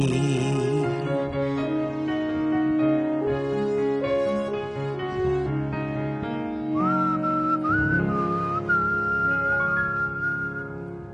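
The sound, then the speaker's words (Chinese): A person whistles a tune over instrumental backing music, with clear, high, sustained notes entering partway through and carrying the melody above the accompaniment. “特登咧吹下口哨咧，令到自己嘅思维咧可以记翻起当年嘅事啊”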